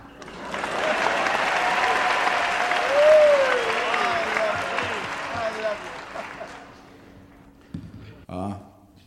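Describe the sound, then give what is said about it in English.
Applause welcomes a performer at a talent-spotting show: a dense, steady clapping of an audience that swells for about six seconds, then fades out. A brief voice follows at the very end. “please put your hands together for a very big warm welcome”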